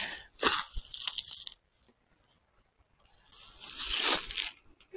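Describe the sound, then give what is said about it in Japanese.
Footsteps crunching on fallen leaves: two crisp, rustling bursts of crackling leaf litter, separated by a quiet pause, with no talk. “この落ち葉を踏んで歩くの結構好きで、”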